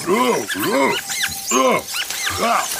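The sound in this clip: A voice imitating an actor's grunting noises: a series of loud, strained, throaty grunts, each arching up and down in pitch, separated by brief pauses.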